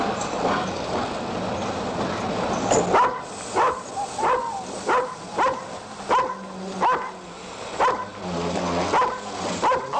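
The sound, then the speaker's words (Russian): German shepherd dogs held by soldiers on a station platform bark loudly in a rapid, regular series of many barks. The barking begins a few seconds in, over a low steady rumble. “На перроне стоят солдаты с овчарками.”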